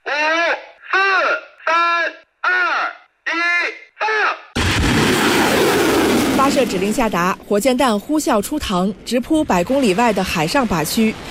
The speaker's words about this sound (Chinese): 发射指令下达，火箭弹呼啸出膛，直扑百公里外的海上靶区。